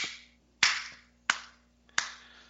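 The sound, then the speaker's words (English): A soft, polite golf clap: a few slow, evenly spaced single claps, quiet and with no voices. “That's a golf clap. Oh. Golf clap for Michael.”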